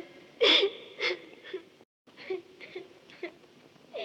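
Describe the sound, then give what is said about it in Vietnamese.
Pitiful sobbing and wailing from a performer in Vietnamese cải lương opera. Several strained, breathy cries come in uneven bursts with a brief silence midway, each wavering and whimpering at a fairly high, tearful pitch. “Lạ kìa, tiếng ai khóc than thảm thế?”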